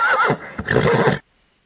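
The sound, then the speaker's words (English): A horse neighs loudly in a wavering, high whinny that dips briefly, then breaks into a second rough, shuddering burst before cutting off into silence. “No, they don't allow horses or war horses in public pools.”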